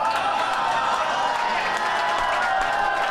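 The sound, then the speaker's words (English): A studio audience erupts in applause and cheers: dense, even clapping mixed with cheering voices, holding steady at the same level throughout. “whenever you end a sentence with a movie title that he's in, the audience erupts like a volcano.”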